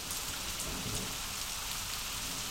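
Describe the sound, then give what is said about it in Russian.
Heavy downpour of rain, a dense, steady hiss of water pounding surfaces that stays loud and even throughout, with no voices. “На Южную Америку обрушились мощные ливневые дожди.”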